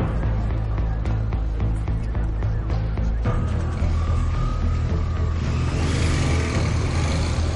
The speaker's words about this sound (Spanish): La moto desaparece por las calles de Barcelona.